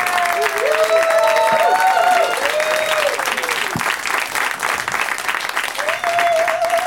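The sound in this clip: A small studio audience applauds with steady, dense clapping that holds for the whole stretch, loud and continuous, with no speech over it.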